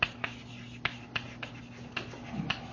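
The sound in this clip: Faint writing sounds come from a physics lecture, with several light taps and scratches scattered over a soft rustle and no talk.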